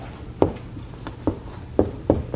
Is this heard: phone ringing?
no